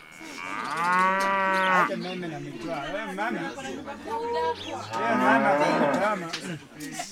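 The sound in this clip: Dairy cattle moo on a village farm, a few long, deep, drawn-out calls with wavering pitch, overlapping with people talking and chattering nearby.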